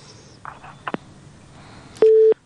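A telephone busy tone after a call is disconnected: one loud, steady, flat beep near the end, preceded by faint clicks over low line hiss.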